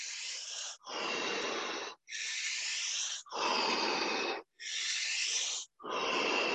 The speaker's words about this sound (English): Breathe in.